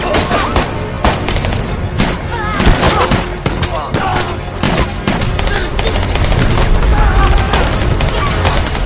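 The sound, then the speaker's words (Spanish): Heavy gunfire as soldiers trade shots with the guards of a lighthouse in a 1950 Korean War film. Dense, loud volleys of rapid automatic and single shots run continuously throughout, with no talk. “Jan baja del vehículo y dispara contra los vigilantes del faro. Los hombres de SEO salen de sus escondites y disparan también. Se inicia un intercambio de tiros por parte de ambos bandos.”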